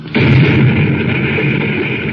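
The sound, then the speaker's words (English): Mountains seem to explode as the ground heaves and shakes: a blast bursts in abruptly and carries on as a loud, sustained rumbling roar, with no voices. “Then suddenly, halfway back to the Polaris, the surrounding mountains seem to explode, and the ground heaves and shakes beneath their feet.”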